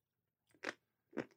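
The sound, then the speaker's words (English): Two crisp crunchy bites into a chocolate-looking treat, short and faint, with silence between them and no talking. “Ooh, smells like chocolate, looks like chocolate. Should I take a bite just for you?”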